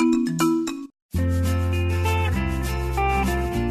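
Phone ringtone for an incoming call plays as an electronic melody: a short run of bright stepped notes, a brief silence, then a fuller, sustained chord-like tune that continues steadily to the end with no talk.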